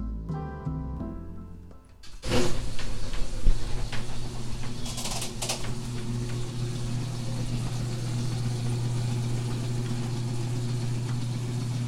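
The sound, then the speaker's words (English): A motorbike engine fires up after a quiet start, then settles into a steady, low, rumbling idle that holds to the end, with occasional bird calls above it. “It was time to take an expedition, so I opened up the hatch, fired up my bike, and took a ride down to St. Philip's Plaza.”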